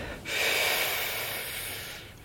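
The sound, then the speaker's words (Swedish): A single deep inhale is drawn as a long, airy breath. The hiss swells quickly, holds for nearly two seconds, then tapers slightly before stopping, with no speech. “Andas in.”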